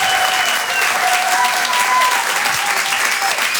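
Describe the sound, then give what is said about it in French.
Applause bursts from the audience for a comedian finishing a live stand-up set: a loud, steady, unbroken roar of many hands clapping, with a few voices faintly audible within it. “Faites du bruit s'il vous plaît pour Brahms.”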